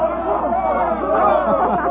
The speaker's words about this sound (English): Mr. and Mrs. William Travis stood on the edge of the yelling crowd, smiling. Well, what is it? What are they saying? The cheer is for the bull.